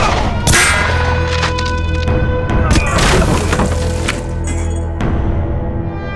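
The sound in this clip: Pistol gunshots go off indoors: a few sharp, loud cracks stand out from a dense, continuous clatter of noise.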